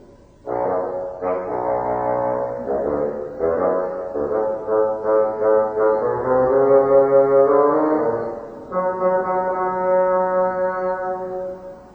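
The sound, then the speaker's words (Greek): Bassoon playing a stern, gruff grandfather's melody, a run of low reedy notes held and stepped at a steady moderate loudness, played alone with no voices for about eleven seconds. “Το φαγκότο τον αυστηρό παππού του Πέτρου.”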